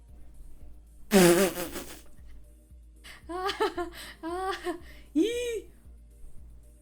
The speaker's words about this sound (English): I'm silently farting loudly.